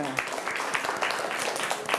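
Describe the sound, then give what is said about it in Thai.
Children clap in a classroom to reward a correct answer, a brisk burst of many fast, uneven claps that holds steady through the moment. “ลองดูคำตอบถูกต้องปรบมือ”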